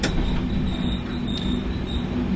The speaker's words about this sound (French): Alors, comme vous pouvez l'entendre, on n'est pas à bord d'un TGV, là. On est dans un train corail.